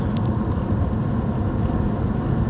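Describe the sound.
A car driving: a steady, loud low rumble of engine and road noise with a constant hum and no clear changes, and no voices.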